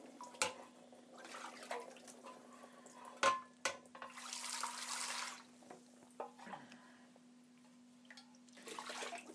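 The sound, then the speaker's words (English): Short bursts of running water during a quick rinse after baking bread, with faint splashing and hissing mixed with a few clunks and knocks over a steady low hum. “Just give it a quick rinse out from the last bread that I did.”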